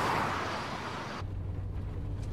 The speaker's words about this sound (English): The car carries on down a straight road with no street lighting.